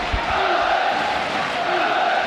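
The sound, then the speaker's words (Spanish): Home football fans cheering their team at Mendizorroza stadium ahead of a vital match, a continuous roar of massed voices with chanting, steady and loud for the whole stretch. “despedida del público en Mendizorroza, animando a los suyos de cara a ese vital encuentro. Así suena Mendy.”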